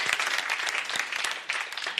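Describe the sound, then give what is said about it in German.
An audience at a Christian gathering applauds, with dense, steady clapping that holds at a moderate level for the full clip. “Halleluja, geben wir Jesus mal einen Applaus.”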